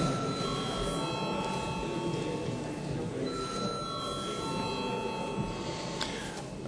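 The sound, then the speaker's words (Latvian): Electric bell in a parliament chamber, rung to summon members to a vote: a sustained, steady metallic ring with a couple of short breaks, heard alone without talk. “Lūdzu zvanu.”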